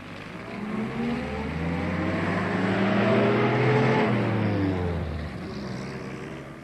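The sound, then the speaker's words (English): A bus engine droning as it goes by, a loud rumbling hum with tonal harmonics that swells toward the middle and then fades, its pitch dropping as it passes. “This is a bus.”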